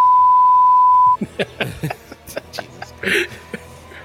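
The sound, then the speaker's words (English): A single pure, steady censor beep holds for about a second, then cuts off abruptly into short bursts of chuckling and talk. “I think that'll be the beep.”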